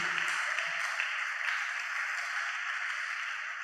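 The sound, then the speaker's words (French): A church audience cheers and claps loudly, a dense, steady roar of voices and hands that holds at full strength for the whole stretch. “Est-ce que tu peux acclamer très fort pour la gloire de Dieu?”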